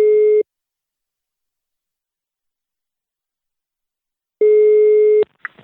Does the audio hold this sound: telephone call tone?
yes

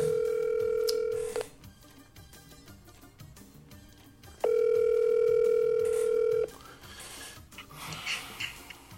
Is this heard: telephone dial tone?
yes

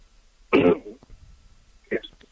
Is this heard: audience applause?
no

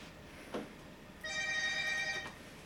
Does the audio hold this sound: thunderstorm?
no

